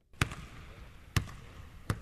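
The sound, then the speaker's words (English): A basketball bounces three times at an uneven pace while a player shoots baskets before practice with a top Greek team. Each bounce is a sharp, punchy thud over a faint, steady background noise. “Mike Batiste watches as a teammate shoots baskets before practice.”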